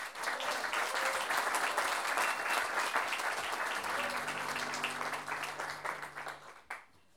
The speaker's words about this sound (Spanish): Valladores del Puerto, quienes por lo menos se merecen un gran aplauso de ustedes.